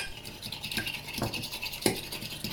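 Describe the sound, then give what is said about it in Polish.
A fork whisks eggs with salt and pepper in a deep plate, giving faint, quick scraping and tapping strokes in a steady back-and-forth rhythm, with a few sharper clicks against the plate. “Mieszam jajka z solą i pieprzem przy pomocy widelca.”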